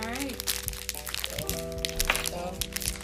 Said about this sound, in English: Tearing through these fruit snacks.